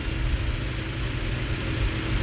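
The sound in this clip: A tractor with a front fork and a raised rear shredder puts out a steady, low engine rumble as it is put into gear to pull away. The rumble stays even, with no voices.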